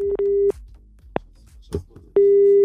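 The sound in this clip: Telephone busy tone after a caller hangs up: a steady, low beeping tone in two long stretches, at the start and the end, with a few brief clicks and knocks in the quieter gap between.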